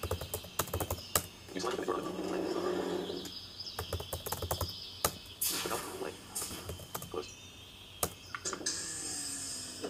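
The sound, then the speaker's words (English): Keys click on a computer keyboard during typing. Many irregular, faint taps over a steady low background, with a few louder strokes scattered through. “I'm going to type here, command.”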